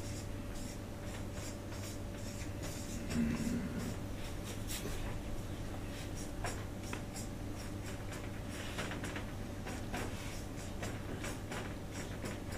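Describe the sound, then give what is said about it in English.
Faint scratching of a pen writing a truth table by hand, intermittent strokes over a steady low hum. “Well, we write a truth table something like this. So here we write P, here we write Q, and here we write that proposition.”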